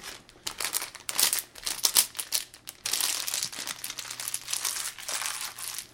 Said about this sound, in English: Where do you keep finding this plastic?